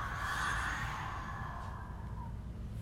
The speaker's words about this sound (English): Inhale. Exhale.